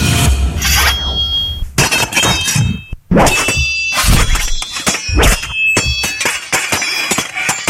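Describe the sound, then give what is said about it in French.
Swords clashing: many sharp metallic strikes in quick, irregular succession, some leaving brief high ringing tones, with a short pause near the middle. “c'est un son d'épée. Ben oui, ce sont des épées”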